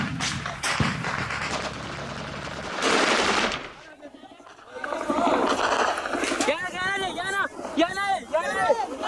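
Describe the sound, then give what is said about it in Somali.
Gunfire during a Boko Haram attack on a position defended by trenches and a wall: loud, dense bursts of rapid shots, a brief lull, then renewed firing mixed with shouting voices. “Boko Haram ayaa raaca dambe ee jiida dagaalkan ka duubaya muuqaaladan rasaas baa dhacaysa, kadibna jahawareer ayaa bilaabanaya.”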